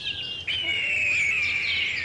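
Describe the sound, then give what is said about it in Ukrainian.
A hawk crying from the top of a neighbouring cliff, a high, drawn-out screeching call that glides slightly downward in pitch, heard alone. “з вершини сусідньої скелі тричі прокричав яструб”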